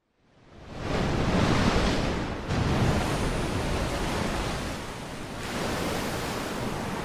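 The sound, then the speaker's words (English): Roar of a storm, wind and rain together as a loud, dense rushing wash that swells in quickly, then holds steady with slight surges and dips throughout. “if you hear the sounds right now, that is the sound of the storm we are in right now.”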